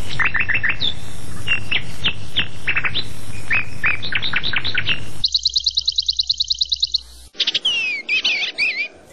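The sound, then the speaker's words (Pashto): A bird sings a lively song of many rapid, high-pitched chirps and whistled notes, followed by a fast, evenly repeated trill and a few more bright calls. “دا مرغه د خپل څښتن په غوښتنه یوه داسې سندره غږوي چې بل څوک یې له اورېدو سره سم ویده کیږي”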